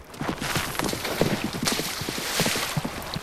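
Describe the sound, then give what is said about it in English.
Hoofbeats of a horse galloping across a river: rhythmic low thuds repeat steadily under a continuous rush of splashing water. “Tyler gets on his horse. His eyes glisten with tears. She could have gotten hurt, Jesse. Or worse. Jordan gallops across the river.”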